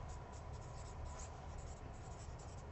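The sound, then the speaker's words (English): Pen scratching on paper as answers are written down by hand: a faint, continuous rasping texture with soft rhythmic strokes and no talking. “I'm going to write these answers down.”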